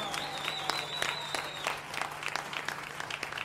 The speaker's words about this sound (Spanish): El aplauso para ese bailarín.